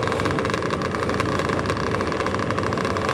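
A race motorcycle engine runs at the start gate before heading out on track. It makes a loud, continuous rumble with fast, even pulsing that holds steady throughout, and no voices are heard.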